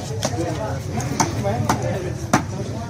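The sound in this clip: A cleaver chopping fish into pieces at a fish market stall in the Sher Khan Bandar bazaar: several sharp, separate chops land at uneven intervals over steady market murmur and talk.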